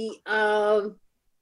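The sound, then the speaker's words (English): A cat meows to be let out: one drawn-out, clearly pitched, fairly loud call of under a second, with rich harmonics, followed by silence. “That's my cat, excuse me. Demanding to go out, but he's not going.”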